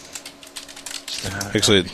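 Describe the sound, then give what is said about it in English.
Typing on a computer keyboard: a scattering of quick, light clicks, then a voice speaking over further keystrokes. “You've got me Googling. I'm typing up the show notes.”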